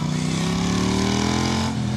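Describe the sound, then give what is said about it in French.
Engine of a Triumph motorcycle with a big 1200 cc twin-cylinder: a loud, continuous throbbing drone whose pitch creeps slowly upward across two seconds. “Et puis après, il y a le son. Donc le son du gros bicylindre 1200 de cette Triumph.”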